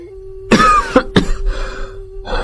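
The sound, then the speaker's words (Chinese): A man's coughing fit after drinking strong imperial wine at a banquet: several harsh, loud coughs, a long one followed by quick short ones and a drawn-out rasp, over a steady low hum. “咳了好一阵儿”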